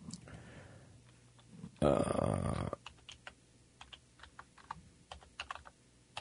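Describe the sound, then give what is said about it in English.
Typing on a computer keyboard while someone enters a website address: scattered, irregular keystroke clicks, fairly soft, following a short, louder broad burst of noise. “I'm trying to type in the website if I have the right one.”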